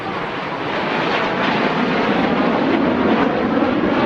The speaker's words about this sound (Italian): Sentiamo aerei, sentiamo aerei